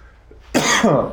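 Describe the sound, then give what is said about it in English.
A man's harsh cough: a short, loud burst out of near quiet, followed by a second rasping push, with a throaty, clearing quality. “He's coughing and I'm not. But I'm gonna start coughing any second now.”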